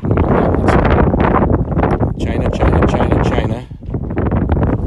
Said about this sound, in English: I gotta try to block the wind, so.